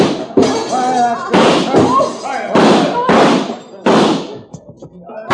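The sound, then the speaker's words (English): A few sharp, booming gunshots fired to shoot out the lights, each with an abrupt loud onset and a ringing, thudding tail, with voices audible between the blasts. “Because I do not want you to spoil your fun by running outside and chasing me, I think I shoot out the lights before I go.”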